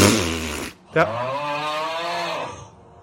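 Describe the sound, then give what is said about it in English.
A voice imitating a fart with low, buzzing, rasping blurts, a loud first burst cut short, then a longer sustained raspberry lasting over a second before it trails off. “That was me doing the fart sound.”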